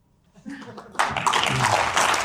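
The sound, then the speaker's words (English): Applause from members of the European Parliament for Professor Jeffrey Sachs breaks out after a brief voice, then continues dense and steady to the end. “That was applause for Professor Jeffrey Sachs, for members of the European Union Parliament.”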